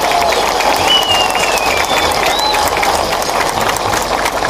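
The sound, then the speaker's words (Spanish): Audience applause at a public welcome in a small town: dense, steady clapping from a crowd, with a few rising whistles over it. “Así que por eso yo solicito de ustedes un aplauso muy grande para el doctor Juan Manuel.”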